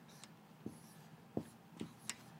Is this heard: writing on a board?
yes